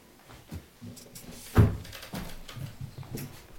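A window is opened, giving one dull, fairly loud knock-like clack partway through, surrounded by soft, low handling and shuffling noises.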